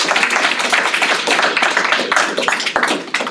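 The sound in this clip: Audience applause welcomes two speakers at a Saturday talk at the Northside Library: dense, loud, continuous clapping that runs the whole length.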